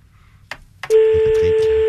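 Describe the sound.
Two clicks sound on an outgoing telephone call, followed by a steady single-pitched ringback tone that holds until the end. A voice speaks faintly underneath the tone.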